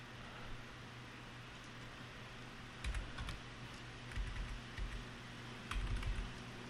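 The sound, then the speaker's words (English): An email address is typed on a computer keyboard during an online checkout. A few short bursts of faint key clicks sit over a steady hum of computer fans. “let's type in my email address”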